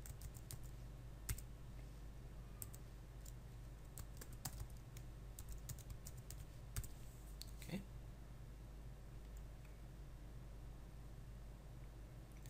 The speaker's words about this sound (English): And type in a password.